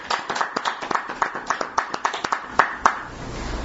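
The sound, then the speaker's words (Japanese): Clapping to celebrate a 65th birthday: many crisp, separate hand claps in a loose, fairly regular rhythm, sounding like a modest group rather than a roaring crowd. “今日はゆきこ先生が満65歳を迎えさせていただきましたので盛大な拍手で”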